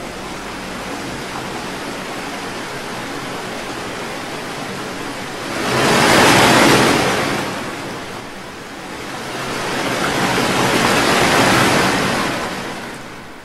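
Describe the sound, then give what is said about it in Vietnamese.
A roaring wall of water rushes in as a steady surging noise that swells twice into loud, crashing roars, one after the other. “Chỉ trong nháy mắt, bức tường nước đã ập đến trước mặt họ. Bóng tối bỗng nhiên biến thành một vật thể khổng lồ, có thể nuốt chửng tất cả mọi thứ, phát ra những tiếng rít kinh hồn”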